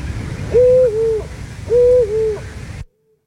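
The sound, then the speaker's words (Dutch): Two female Eurasian eagle-owls hoot one after another. Each gives a loud two-part call, a longer note followed by a shorter, softer one, over a low background rumble that cuts to silence at the end. “Oh, dat zijn 2 verschillende vrouwtjes vlak achter elkaar geplaatst. Maar je hoort het bijna niet. Dat klopt. Maar het zijn 2 verschillende oehoes.”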